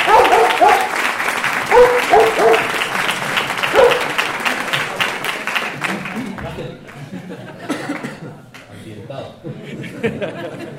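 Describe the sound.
Audience applause rings out at the opening ceremony of a dog fair, with dense, steady clapping and scattered chuckles. The clapping thins and fades over the second half, leaving sparser claps.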